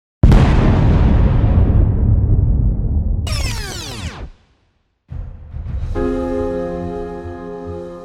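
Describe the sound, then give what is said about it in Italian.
A bomb blast in the large hall of a bank in central Milan in 1969: one loud sudden explosion that trails into a long, rumbling decay over several seconds, followed by further noise. “Ma torniamo al giorno in cui una bomba esplode nel centro di Milano, nel grande salone della Banca Nazionale dell'Agricoltura.”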